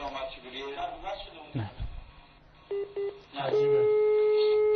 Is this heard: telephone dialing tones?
yes